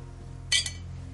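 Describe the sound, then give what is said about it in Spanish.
A brief bright clink of glass as two glasses of liqueur are poured, two quick light taps close together over a faint, steady low hum, with quiet surroundings before and after. “Ella sirve dos copas de licor.”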